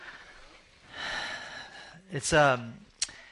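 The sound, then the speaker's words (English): A deep breath drawn in with a breathy rush, followed by brief voiced sounds, heard alone at moderate loudness. “Let's take a deep breath.”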